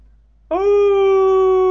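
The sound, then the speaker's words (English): A voice imitates an ear-piercing creature howl, not a dog's: after a brief silence, one loud, sustained hooting tone rises abruptly and holds a steady pitch to the end. “He tilted his head to the sky and let out an ear-piercing howl. Ooh! But more ear-piercing. Not the howl of a dog, a creature howl.”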